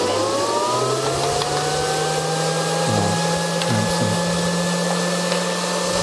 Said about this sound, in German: Da seht ihr dann tatsächlich auch, wie geröstet wird gerade.